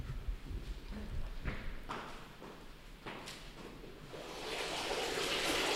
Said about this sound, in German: Was ihr hört, ist Wasser plätschern. Aus einem wunderschönen Brunnen,